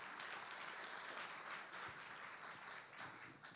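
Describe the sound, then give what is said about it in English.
Applause from an audience at a church service welcoming a woman who will share a healing testimony. The clapping is soft and sustained, an even, steady patter with no voices over it. “Let's put our hands together. Welcome, Sherry Lim.”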